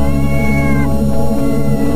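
A cat meows in a drawn-out, steady tonal cry that fades partway through, heard over a loud continuous low droning hum that fills the whole clip.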